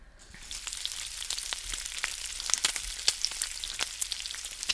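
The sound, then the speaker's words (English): Bacon frying, a steady, bright sizzling hiss dotted with many sharp pops and crackles that grow slightly busier over the seconds, with no voices. “I'm going to say yeah, bacon. Yeah, you're probably right. Bacon frying.”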